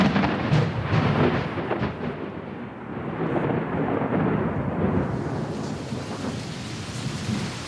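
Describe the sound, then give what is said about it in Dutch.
Rain falls with thunder in Sydney: a dense, steady hiss of rain covers a deep rumble that swells and eases over several seconds, and no voices are heard. “Het lijkt wel een soort sadistische grap van de weergoden, want sinds Sydney deze week uit de lockdown kwam, na 4 maanden, regent het elke dag.”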